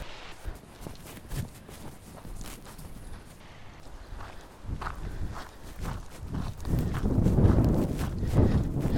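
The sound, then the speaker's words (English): Footsteps walking on shifting beach sand: many soft, dull crunching steps in an uneven rhythm, growing louder and rougher toward the end, with light wind noise. “don't underestimate hiking in the sand, you guys. I think beach walks are easy, they are not.”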